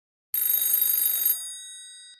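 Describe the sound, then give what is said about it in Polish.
A telephone bell rings in a hotel room. One burst of rapid metallic ringing lasts about a second, then fades into a lingering tone before a new ring starts at the very end. “Telefon w pokoju hotelowym zadzwonił kilka minut po 8 rano.”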